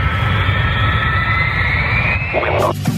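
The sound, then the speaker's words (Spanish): An aircraft taking off from a runway: a loud, continuous engine roar with a high, steady whine over a deep rumble, shifting briefly near the end. “Tripulación entrando en pista. Prepárense para el despegue.”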